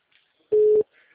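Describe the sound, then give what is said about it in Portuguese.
A single short electronic beep from a video call ringing while it waits to be answered. The steady mid-pitched tone is fairly loud and stands alone against near silence. “Mas pode clicar pra atender, tipo, pra atender que ele tá tocando ainda.”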